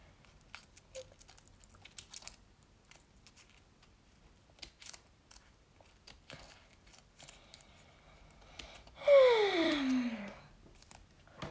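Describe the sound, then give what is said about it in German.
Someone cuts further around a piece, making scattered quiet snips and crisp clicks at an irregular pace. Near the end comes a brief, louder tone that falls in pitch. “Deshalb schneide ich da jetzt noch weiter rum.”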